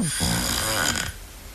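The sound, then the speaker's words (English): A sleeping woman snores loudly, a single long, rasping, rumbling breath lasting about a second before fading to a quieter tail. “Snoring.”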